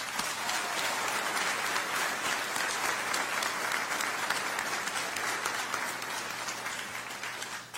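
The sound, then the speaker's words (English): Sustained audience applause after a national anthem performance, dense steady clapping throughout that eases slightly at the end. “Praise Motivated for that rendition of the national anthem. Give them another hand.”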